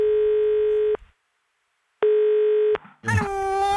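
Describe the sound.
A telephone ringback tone while a call is placed: two steady, even tones, each about a second long with a pause between, followed by a person starting to speak.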